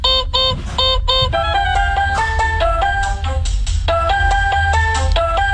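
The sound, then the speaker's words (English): A child's electronic toy plays a bright synthetic tune of rapid beeping notes that step up and down in repeated phrases, loud and continuous over a constant low background hum, with no voices. “So that is the sound of one of my son's toys.”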